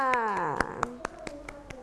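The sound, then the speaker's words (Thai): Hand claps for a young child after a matching-game demonstration, following a brief spoken phrase: a series of sharp, evenly spaced claps in a slow, regular rhythm. “ปรบมือให้น้องกันหน่อยค่ะ”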